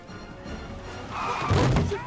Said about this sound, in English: slams into a car, backing out of a space.